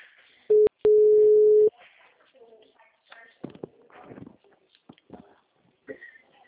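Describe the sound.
A telephone ringback tone sounds on an outgoing call. A single steady, mid-pitched tone lasts about a second near the start, and faint scattered noises and voices follow.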